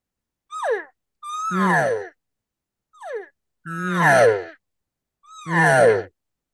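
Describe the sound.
A man imitates a cow's estrus buzz call with his throat. There are five breathy, groaning bursts with falling pitch, and short calls alternate with longer, louder drawn-out ones.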